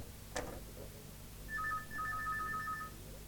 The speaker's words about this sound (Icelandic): Og það er bara sími aftur hér.